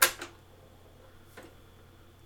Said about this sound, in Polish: No i naciskam play.